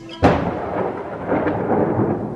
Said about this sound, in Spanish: Noche de estío. Nace y muere un relámpago. Conforme truena.